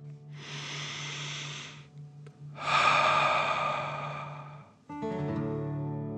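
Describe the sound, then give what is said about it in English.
Breathing in and out during a relaxation exercise: two long, airy breaths, the second louder, over a steady low hum, with a sustained tonal sound entering at the end. “And breathe in and out.”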